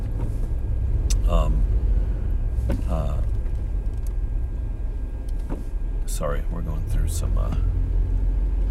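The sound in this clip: Road traffic near a bridge under repair after a typhoon: a continuous low rumble of passing vehicles runs throughout, with people talking over it.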